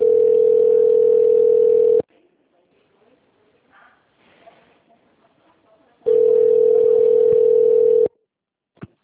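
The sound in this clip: Ringback tone of a telephone call connecting to a customer service line: two long, steady, loud tones of about two seconds each, separated by a pause filled with faint low noise, then a short click.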